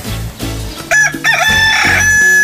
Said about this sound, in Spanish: Y para que se motive más, así le canta mi gallo.